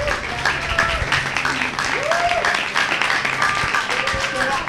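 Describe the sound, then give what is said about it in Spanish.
Audience applause at a debate on Nicaragua, a steady patter of clapping that runs throughout while a voice keeps talking over it. “Bueno, muchísimas gracias, un gran aplauso.”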